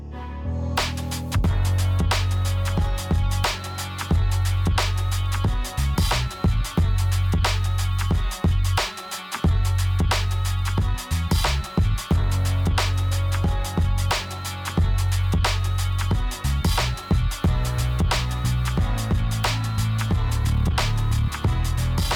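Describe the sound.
A second instrumental beat plays as a driving loop of deep bass and crisp, rapid percussion, with a brief drop-out partway through before the groove resumes at full level. No voices are heard.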